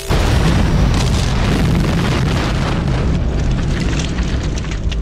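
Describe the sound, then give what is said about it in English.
Sound effect of time torpedoes being fired, heard as a loud, dense, roaring blast with heavy low rumble. It holds steadily at full strength for about five seconds. “Targeting time torpedoes. Novin? I'm sorry, Ace. Fire!”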